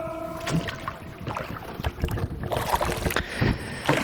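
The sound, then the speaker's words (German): A canoe gliding along a Spreewald canal and passing under a bridge, with irregular paddle splashes and knocks over a constant rush of wind noise; no one speaks. “Guck mal, wir sind unter einer Brücke. Hört man das? Das hört man.”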